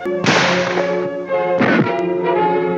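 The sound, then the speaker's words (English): Loud gunshot cracks from an M1 rifle, a .30 caliber standard infantry firearm, fired in a penetration test against partitions; two sharp reports, each followed by a lingering ringing tail, with no talk. “Now the 30 caliber carbine. Next, the M1 rifle.”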